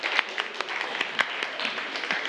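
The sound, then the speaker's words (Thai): Students in a classroom clap in a loose, uneven patter. Separate sharp hand claps stand out at irregular intervals over a thin layer of softer clapping, at a moderate level. “กลับกันปรบมือกันหน่อย”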